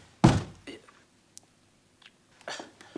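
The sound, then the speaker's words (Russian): A door kicked open lands as one heavy, low thud near the start, followed by quieter scuffs and rustles. “Лапшин открывает дверь ударом ноги.”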